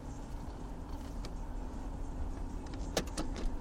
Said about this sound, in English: That noise means I'm in the Buick. That noise means I shifted into gear before disengaging the emergency brake. Backing out of my driveway.